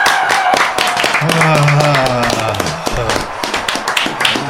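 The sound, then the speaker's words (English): A crowd clapping and cheering at a live event, a dense patter of claps running beneath loud talking voices. “And the crowd lose their shit.”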